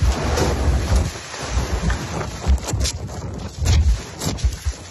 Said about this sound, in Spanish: Localidades del litoral entre Santa Pola y Guardamar del Segura sufrieron rachas de viento de más de 90 kilómetros por hora. Así sonaba el que azotó Torrevieja.